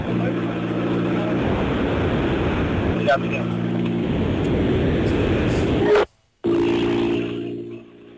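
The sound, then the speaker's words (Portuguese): A car engine on a timed run drones loudly and steadily, shifting pitch a few times. It cuts out briefly near the end, then returns and fades. “ouvir o barulho do motor do carro de Miguel Caires”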